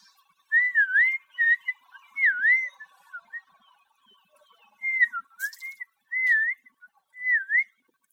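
Whistling by a person on a back road behind a hill: a series of short, clear, high whistled phrases with swooping dips in pitch, in bursts separated by pauses, alone in otherwise quiet surroundings.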